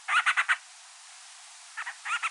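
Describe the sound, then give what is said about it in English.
Band-rumped storm petrel calls, from a small, rare seabird that nests in the Hawaiian Islands and visits island mountains: bursts of rapid, raspy pulsed notes, a run of four, a pause, then two shorter groups. “Known locally as Ake Ake, the bandrump storm petrel is one of the smallest and rarest seabirds that nest in the Hawaiian Islands.”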